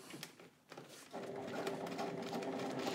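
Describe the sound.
A sewing machine stitching a seam starts after a few brief clicks. It then runs in a rapid, even whirring hum that carries on steadily to the end.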